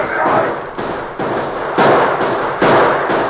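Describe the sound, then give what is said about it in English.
Gunfire sound effect as a band of men opens fire on two riders mounting their horses. Loud, dense bursts of crackling shots come in several successive waves with no pause between them. “Just as the Lone Ranger and Tonto mounted, Bull Davis's men saw them and opened fire.”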